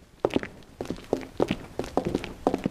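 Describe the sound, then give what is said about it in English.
Footsteps of a detective pair and a police officer walking up to a body: several fairly soft, evenly spaced steps in a quick walking rhythm, with no talking. “Shepard and Stone and the police officer walk up to the body.”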